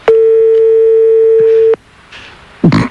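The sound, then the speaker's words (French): A telephone line tone as a call is placed to the production room: one loud, steady, even-pitched tone lasting under two seconds, then cut off and followed by brief faint noise and a short rustling burst. “On va appeler la production à côté”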